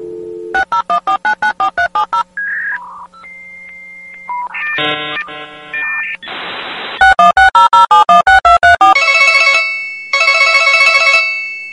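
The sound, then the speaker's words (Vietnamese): Keypad tones of a telephone number being dialed: a fast, loud run of beeps, then assorted electronic tones and a hissing burst, followed by another rapid run of beeps and ringing chimes. “Rồi cô bấm số gọi vào máy của Dục Chu”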